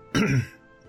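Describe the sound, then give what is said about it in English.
A single throat clearing, one rough, raspy burst lasting about a third of a second, loud and alone, then fading into quiet. “he clears his throat”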